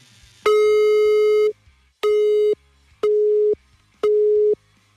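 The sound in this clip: A telephone busy tone sounds after a call is hung up: four loud, steady beeps at the same pitch. The first beep lasts about a second and the next three are shorter, evenly spaced pulses separated by silence.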